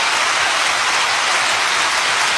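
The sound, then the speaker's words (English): An audience claps in a thick, even patter of many hands that runs unbroken from start to finish, loud and with no other sounds on top. “And there they are, clapping like a bunch of morons.”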